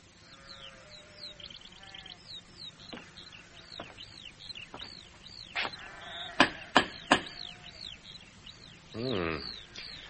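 Sheep bleat on a farm in a scene set in 410 AD. A few bleats sound among continuous high birdsong chirps, with one louder wavering bleat near the end.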